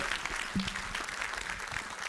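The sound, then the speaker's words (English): Applause from a church audience welcoming a pastor to speak at a service: a soft, steady patter of clapping that runs throughout, with no cheering. “So let's give him a hand and welcome Pastor Ted.”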